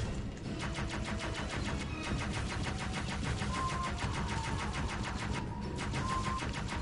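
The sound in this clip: Rapid automatic gunfire from a gun in a video game, a fast, even stream of shots that runs unbroken from start to end, loud and steady with no talk.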